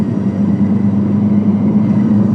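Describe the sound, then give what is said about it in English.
Steady engine drone from a turbocharged car under boost during a high-altitude lap in Colorado, a continuous low, even hum with a strong low tone and no talk over it. “Ooh, the boost pressure sounds different at this altitude. It does. Yeah. It sounds meaner.”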